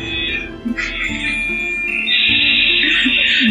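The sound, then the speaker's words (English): Dial-up modem connection noise plays in a video game: warbling, shifting electronic tones give way to a steady, loud hissing static for the second half. “It might not be able to hear it on the stream, but there's the dial up noise.”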